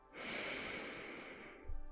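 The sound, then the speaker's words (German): A deep inhalation through the nose during a guided breathing exercise, drawing air into the belly. It is a long, steady, airy rush of breath lasting over a second, followed by a brief soft low thump. “Nimm einen Atemzug durch deine Nase bis tief in deinen Bauchraum ein”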